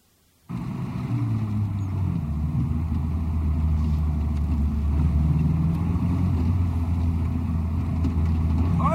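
A car engine drones steadily while driving a bumpy, potholed road in Mexico, a low, even rumble that starts abruptly after a brief silence and holds at a constant loud level, with no talk.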